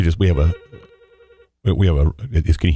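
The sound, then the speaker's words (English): A telephone rings in a single trilling burst of about a second, a steady electronic tone falling between stretches of people talking before and after it. “We have a ringing phone. We're waiting for it to end right now, so it didn't bother the last section there.”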